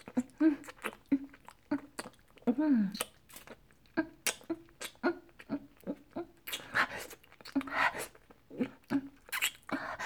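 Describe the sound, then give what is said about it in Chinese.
Chewing of a big steamed meat bun: wet, smacking bites and mastication repeat in a steady rhythm, many short squishy mouth sounds with a few faint voiced murmurs between them. “大肉包真好吃啊。”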